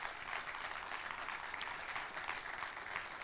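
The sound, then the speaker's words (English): A church audience applauds in a dense, even wash of clapping that holds steady throughout and stays fairly soft. “Put your hands together if you're excited about being here.”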